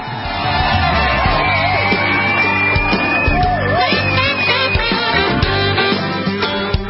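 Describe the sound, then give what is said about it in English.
A studio audience welcomes a guest with a dense, continuous wash of cheering, yelling and whooping that holds at a steady, loud level throughout. “Ladies and gentlemen, please put your hands together and welcome Kimberly Ells.”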